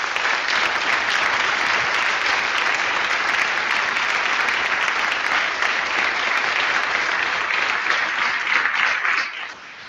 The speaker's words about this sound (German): Einen dicken Applaus.